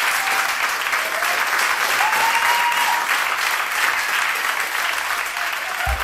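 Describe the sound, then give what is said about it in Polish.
Sustained applause from a concert audience after a stage performance, a dense, steady clapping wash that stays loud from start to finish without a break. “Oklaski jak najbardziej zasłużone.”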